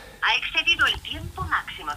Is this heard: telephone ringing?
yes